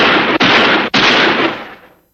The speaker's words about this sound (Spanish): Santiago reaccionó lo disparó en el, en el estómago